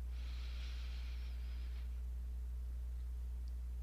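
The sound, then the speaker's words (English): A deep inhale through the left nostril during alternate nostril breathing, one soft, airy intake lasting over a second, followed by quiet over a steady low hum. “We're going to breathe in through the left nostril as deeply as is comfortable for you.”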